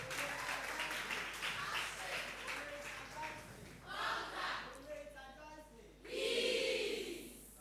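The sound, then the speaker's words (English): An audience applauds as debaters are welcomed to a senior high school debate. Clapping runs under a speaking voice at first, and talk continues as the applause thins. “And keep the applause rolling as we welcome your debaters.”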